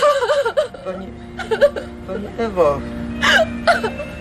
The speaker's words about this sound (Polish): To proszę, niech pani nie płacze.